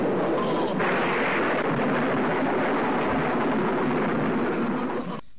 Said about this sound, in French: vous l'avez entendu à travers les coups de tonnerre